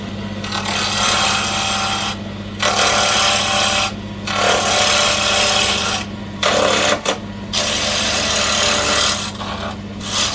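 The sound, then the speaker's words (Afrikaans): A wood lathe turns a square block of wood fitted with a brass tube down to a round pen blank. A steady motor hum runs under several loud, rough scraping bursts from the cutting tool, separated by brief pauses. “dan bring jy die sterkkant van die draaibank nader om hom nou vas te klem daar dat jy 'n klein rus en dan kan jy hom aanskakel en begin draai.”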